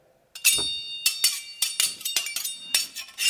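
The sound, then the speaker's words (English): Pizza spatulas clash together like swords in many bright, ringing metallic clangs, quick and irregular, each strike leaving a short shimmering ring. “As soon as I stopped serving pizzas with these pizza servers. Those are not swords. They're pizza spatulas.”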